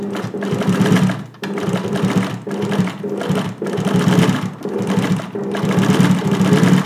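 Camille's sewing machine runs in loud, fast mechanical bursts of rapid needle clatter, split into several runs by brief pauses.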